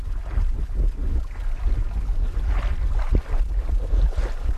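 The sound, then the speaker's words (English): Water laps against the side of a sailboat on the Charles River in Boston, soft irregular splashes over a constant low rumble of wind buffeting the microphone. “That's the sound of water lapping at the side of a sailboat along the Charles River.”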